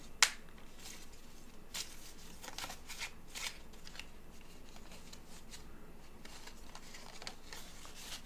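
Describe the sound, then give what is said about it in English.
Cards drawn from a Bridget card deck, faint soft rustles and flicks with one sharp snap near the start, quiet and without talk. “Pick another card from the Bridget deck.”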